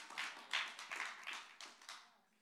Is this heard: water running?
no